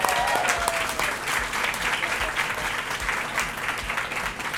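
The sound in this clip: Loud, steady applause from a live audience at an Atlanta interview taping honouring a chef, with dense, even clapping filling the whole clip without pause.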